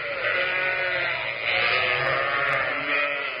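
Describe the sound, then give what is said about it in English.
A flock of sheep bleats while being fed, many overlapping voices merging into a loud, continuous, wavering chorus. “Whilst that racket of sheep is being fed”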